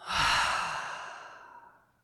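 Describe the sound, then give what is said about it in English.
A deep exhale released after holding a full breath in a breathing exercise: one long, breathy rush of air that starts strong and fades steadily over about two seconds. “Inhale, fill all the way up. Inhale a little more. Hold. And then let it go.”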